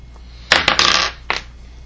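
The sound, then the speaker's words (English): During a tabletop game, a six-sided die clatters across a hard surface in a brief rattling roll: a few bright, sharp impacts bunched together, then a final light tap. “Roll a d6.”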